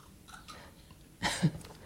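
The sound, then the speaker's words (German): Someone takes a sip of a drink: one brief, soft slurp near the end, faint and alone, with no talk. “Ich würde jetzt gerade noch einen Schluck trinken.”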